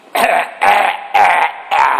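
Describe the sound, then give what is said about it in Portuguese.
A man clears his throat in four loud, rasping bursts, evenly spaced with short silent gaps between them, each a harsh, voiced rumble. “Temperei a garganta.”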